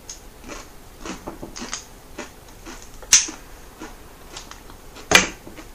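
Lighter clicks while a cigarette is lit, two sharp distinct flicks standing out above a bed of faint soft ticks and rustling.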